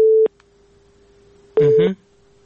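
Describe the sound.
Telephone busy signal after a call-in connection dropped. Two loud, steady tone bursts are separated by a pause, with a faint continuous tone lingering in between.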